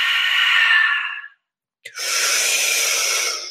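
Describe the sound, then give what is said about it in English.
Two long, airy exhales during guided breathwork, each a steady breathy hiss lasting over a second, separated by a brief silence. The second exhale is brighter and slightly longer. “Exhale. Almost done. Last push. Exhale.”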